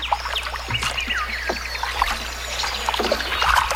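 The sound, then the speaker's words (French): Water gently lapping and trickling as from paddling a canoe: soft, irregular splashes and dribbles at a moderate level, over a steady low hum. “Ah, c'est zen. On est en canot, là.”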